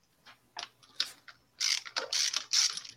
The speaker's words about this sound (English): We got spark plug socket. We're going to yank these two spark plugs. I was smart before the show and went ahead and loosened them.